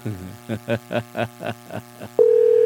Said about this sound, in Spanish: atiende, pues, hijo. Contesta la llamada.